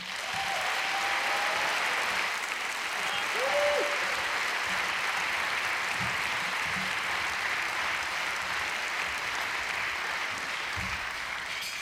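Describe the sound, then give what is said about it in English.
An audience applauds to welcome a bluegrass band on stage, with dense, sustained clapping that runs at an even level throughout and a couple of brief whistles early on. “Please put your hands together and give a good, rousing Augusta welcome to Critton Hollow.”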